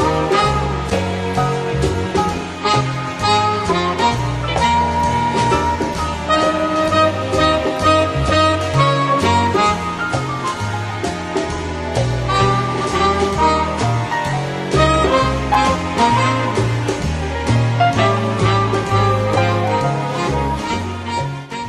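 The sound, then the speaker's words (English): Muzak-style instrumental background music plays steadily and loudly for over twenty seconds. It has a regular beat and smooth, layered melodic lines, with no voices. “That was the sound of Muzak, for those of you who wanted to know. And it's official because I got it from the BBC website and they said that it was an example of Muzak.”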